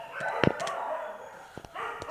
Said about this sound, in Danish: du skal råbe til hundene, de skal stoppe med at gø. Prøv at gøre et eller andet, så de stopper med at gø, men det kan man ikke.